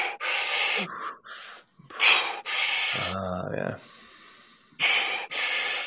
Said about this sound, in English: So you fill your lungs up and you keep it filled and you power breathe.